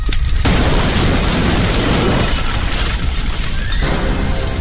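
A propane tank explodes beside a burning ATV in one loud, dense roar of blast and crashing, shattering debris that holds steady for over four seconds.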